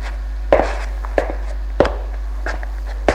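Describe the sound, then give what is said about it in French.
Footsteps of a person walking toward someone after leaving a bathroom: five even, steady thuds over about three seconds, over a constant low hum. “Il entend Martin qui sort de la salle de bain. Va vers lui.”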